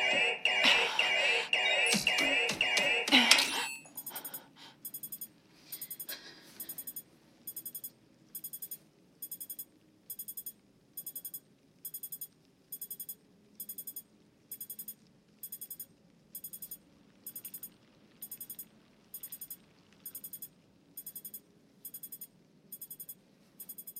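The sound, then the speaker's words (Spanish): An alarm beeps in a steady, evenly spaced series of many high, bright pulses. A brief loud burst of mixed sound comes just before the beeping. “Silencia esa alarma.”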